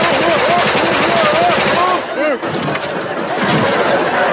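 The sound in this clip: Rapid bursts of blank-round gunfire ring out in a film scene, loud and continuous, with voices heard over the shooting.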